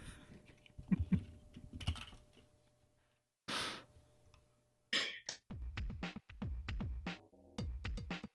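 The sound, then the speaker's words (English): Someone types on a computer keyboard while testing it. The key clicks are faint and rapid, coming in irregular bursts with a short pause partway through. “We have to test out the keyboard on that computer.”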